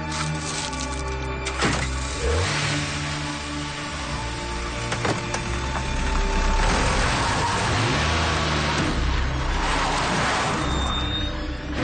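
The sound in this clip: A car engine runs with a steady low rumble and mechanical whirring as the vehicle drives, with no talking.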